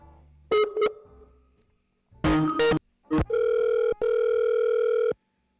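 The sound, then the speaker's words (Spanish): Telephone line tones while calling a number: a few short electronic bursts, then a long, steady, buzzy tone with one brief gap. It is loud and plays alone with no talk. “Estamos llamando a alguien del chat que acaba de mandar su número.”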